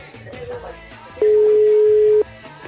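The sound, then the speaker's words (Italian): A telephone ringing unanswered: one steady, mid-pitched ringback beep about a second long rises clearly above a busy background of other sound. “Però non risponde. Squilla a vuoto, perché?”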